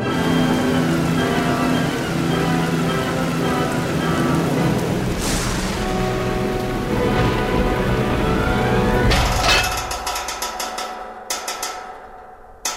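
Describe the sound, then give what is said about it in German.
Heavy rain pours down in a storm over fields as a dense, steady hiss and roar, then thins after about nine seconds into scattered, uneven patter. “Der Himmel fällt vom Himmel, sozusagen, in Flächen. Darum schiebt es ja die Luft so brutal über die Felder. Regenflächen. Wie Bettlaken.”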